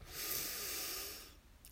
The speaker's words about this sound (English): And our third and last breath in together. Let's breathe in,